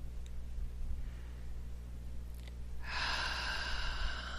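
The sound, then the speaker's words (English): A deep breath drawn in: after near-silence over a low steady hum, a soft, airy inhale begins about two-thirds through and continues to the end. “Nice deep breath here, please.”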